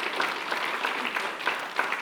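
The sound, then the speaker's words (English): A round of applause from an audience at a church gathering, steady, evenly dense clapping at moderate loudness with small swells, no voices above it. “Would you give a round of applause to folks who jumped up today?”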